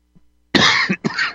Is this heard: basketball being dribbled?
no

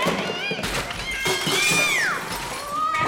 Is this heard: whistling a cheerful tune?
no

